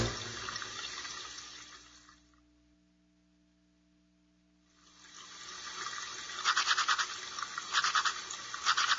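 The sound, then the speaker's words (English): A toothbrush scrubs teeth in a soft, steady brushing hiss, falls quiet for a couple of seconds, then resumes louder with quick repeated back-and-forth strokes. “He brushes his teeth. Brush, brush.”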